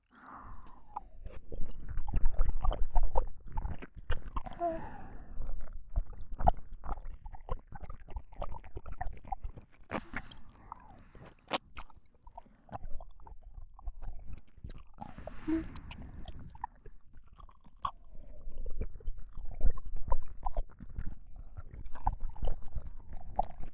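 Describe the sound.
Chewing and eating food, heard up close as repeated moist bites and crunchy mastication over a long stretch. Loudness rises and falls, and no one talks.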